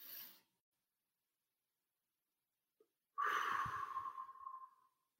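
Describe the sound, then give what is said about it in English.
A deep breath drawn in, held in near silence for almost three seconds, then let out in a long, breathy exhale, as an adult demonstrates a calming breathing exercise for a child. “You were able to take a deep breath in, count to three, hold it, and then you let it go.”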